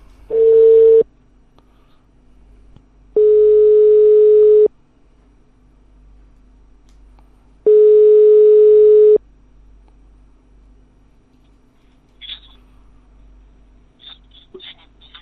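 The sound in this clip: Telephone ringback tone on an outgoing call: three steady, mid-pitched beeps, each lasting about a second or more and spaced several seconds apart, followed by a few faint clicks on the line.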